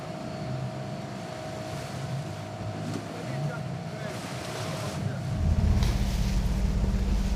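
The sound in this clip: Steady motor drone of an auxiliary boat moving goods between two ships, with wind and water noise throughout; a deeper, louder engine rumble swells over the last couple of seconds.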